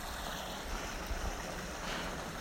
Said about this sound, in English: above the running water of Potash Brook